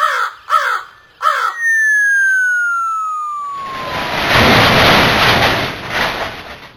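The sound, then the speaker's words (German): A giant crow caws three times in quick succession as it falls, then a long descending whistle glides down in pitch before a loud, broad crashing roar takes over and sustains to the end. “Was zur Hölle? Da ist eine riesige Krähe auf Ronny gefallen.”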